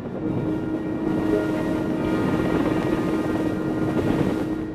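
A military helicopter in formation flight, heard from an open doorway during a gunner orientation ride, makes a steady, dense rotor and engine drone with a low hum running evenly throughout.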